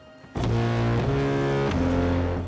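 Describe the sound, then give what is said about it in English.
Three-note figure played on a harmonium, an old-fashioned, period-appropriate pump organ once owned by the player's great-grandmother, in a film score: sustained reedy chords step through three notes, each held for well over half a second, over a soft airy wash. “that he is playing on a harmonium, which is an old fashioned kind of pump organ. In fact, this specific pump organ belonged to his great grandmother”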